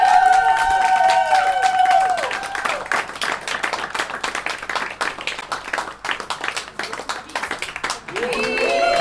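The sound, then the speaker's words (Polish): An audience applauds and cheers after a live music performance, a loud, dense roar of clapping filling the middle. Sustained tones fade out at the start and return near the end. “Kasia Linz, wielkie brawa!”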